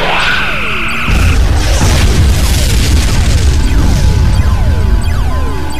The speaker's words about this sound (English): Corvette destroyed!